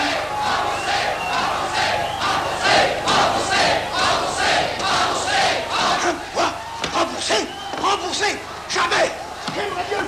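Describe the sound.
A theatre audience shouts as a crowd, many voices overlapping in loud, ragged bursts that keep rising and falling over about ten seconds, with a few sharper outbursts toward the end.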